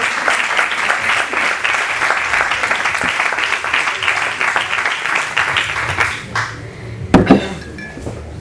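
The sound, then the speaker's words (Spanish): An audience applauds at the close of a talk on sexualities, with dense, steady clapping for about six seconds that then thins out and stops, followed by a couple of brief thuds. “Es que me encantan los aplausos.”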